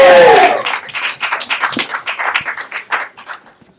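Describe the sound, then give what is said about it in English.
A comedy-club audience claps as a local comedian comes on stage for the second act: a loud voiced shout at the start, then a patter of hand claps that gradually thins and fades toward silence. “So please, put your hands together.”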